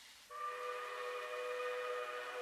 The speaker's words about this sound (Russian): Ну что ж, вот и гудок. Давайте сядем перед дорогой, как в старину.